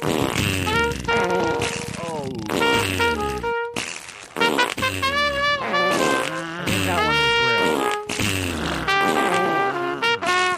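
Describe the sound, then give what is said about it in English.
Loud fart sound effects are played as music along with a Christmas song: dense, buzzy, shifting tones that run continuously through the whole passage. “play more fart, play it again, play more fart. Fart it up.”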